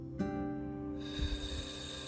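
A slow exhaled breath during a guided breathing meditation, a soft airy rush that begins partway through and holds steady over a sustained tonal background.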